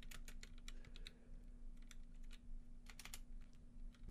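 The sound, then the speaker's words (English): Rapid typing on a computer keyboard: many irregular, light clicks in quick bursts with short pauses, over a steady low hum. “Damn it, I can't type right now. Oh, I'm putting my... I don't have my fingers in the right home keys there.”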